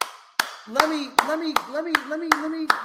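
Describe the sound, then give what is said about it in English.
A host claps his hands in praise of a boxing fight, seven sharp, crisp claps at a fairly even rhythm, with a voice talking between them. “let me clap it out because boxing needed that.”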